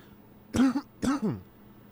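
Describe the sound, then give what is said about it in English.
Two rough, voiced throat-clearing bursts from someone with something stuck in the throat, each about half a second long, separated by a short pause and heard alone. “Something is stuck in my throat.”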